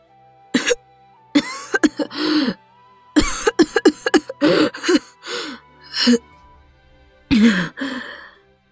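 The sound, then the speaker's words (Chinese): A woman coughs in a series of harsh, sputtering fits made of many short bursts, with gasping breaths between them and brief silences. “妇人又咳了起来。”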